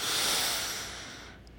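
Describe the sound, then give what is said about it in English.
A deep inhale drawn in through the nose, heard as a steady, airy, rushing hiss that starts loud and slowly fades over under two seconds. “Deeply inhale your power through your nose.”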